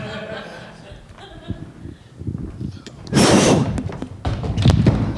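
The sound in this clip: A door is forced open by throwing a person through it: a loud, sudden crash bursts out midway, followed by further heavy thuds, with voices talking before and around the impact.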